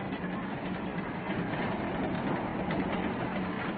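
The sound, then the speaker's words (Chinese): Steady, dense rumble of a train arriving at a station, a continuous rolling roar of wheels and carriages that holds an even loudness throughout without clear breaks. “列车进站以后”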